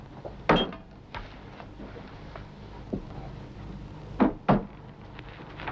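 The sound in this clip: A work coat is hung in a locker, making a few short knocks and thumps of the locker, with two close together near the end, over a low steady hum.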